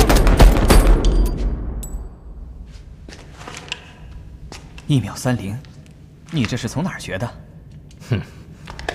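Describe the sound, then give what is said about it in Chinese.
Rapid pistol shots from a handgun with a polished slide, a quick cluster of sharp, loud cracks at the start, followed by people talking. “而且还抛光了上膛的滑道，你想试试吗？给，好，准备，准备，射击。”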